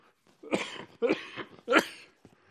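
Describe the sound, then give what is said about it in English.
A person with allergies coughs three times in separate harsh bursts, fairly quiet, with short pauses of silence between them. “I'm going to cough up a lung in one of these days, just so you know. I think this is allergies going on.”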